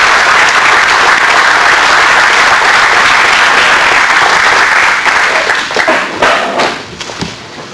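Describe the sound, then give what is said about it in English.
Audience applause welcomes a speaker to the platform: dense, steady clapping from many hands that holds for several seconds, then thins and tapers off near the end. “So please put your hands together and join with me in welcoming Ron Moore up to the speaker's platform.”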